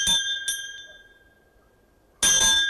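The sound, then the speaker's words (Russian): A bell rings at a garden gate in the evening. Two bright, ringing strikes come close together and fade, then after a quiet pause a louder, sustained jangling peal follows. “звонит звонок у калитки.”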